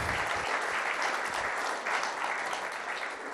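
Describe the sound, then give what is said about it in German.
Warm audience applause welcoming a guest, an electrical engineer who came with his wife; a thick, continuous wash of clapping stays fairly even throughout, easing slightly toward the end. “Komm, wir geben ihm einen herzlichen Applaus.”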